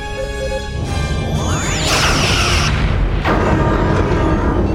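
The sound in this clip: Starship phaser fire returned at reduced power during a space battle: a loud, continuous sci-fi weapon effect with a sweeping falling tone, a bright roaring swell near the middle and a second burst after it.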